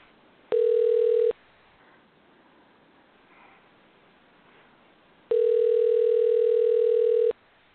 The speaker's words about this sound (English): Let's try this number real quick. And we're dialing.